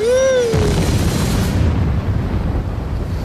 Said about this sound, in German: Die Bombe.